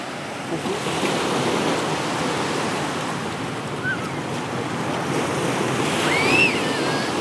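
Sea waves at Dunkirk, shipyards in the distance: a continuous, steady rush of surf mixed with wind noise, unbroken throughout.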